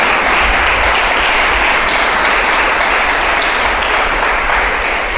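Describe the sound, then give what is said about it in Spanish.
An audience applauds during a church service, a loud, dense, continuous wash of many hands clapping together that holds steady and unbroken from start to finish. “¿Por qué no le da un aplauso al Señor, por favor?”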